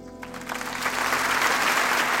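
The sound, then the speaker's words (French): An audience applauds to greet a guest in a morning studio. A dense, steady patter of many hands builds slightly and then holds, with no talk. “C'est sous les applaudissements que nous vous donnons la parole ce matin.”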